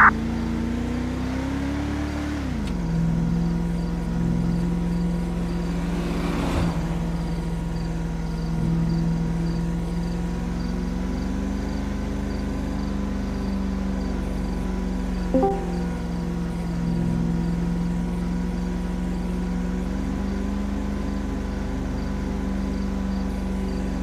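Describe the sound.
A car engine drones as it is driven in a police patrol video game. The pitch climbs briefly and drops near the start, then holds a steady, even hum with a couple of faint clicks.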